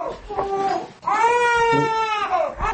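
A two-month-old baby cries in a family home: a few short, broken wails at first, then one long, loud, high-pitched sustained cry, and another cry starting at the very end.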